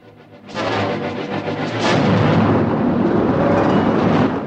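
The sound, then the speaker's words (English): Avalanche sound effect of snow plunging down a steep forested valley and toppling pine trees: a deep roaring rumble bursts in abruptly after a brief lower swell, then grows and holds as a loud, sustained thunderous roar. “The avalanche plunges on, toppling pine trees.”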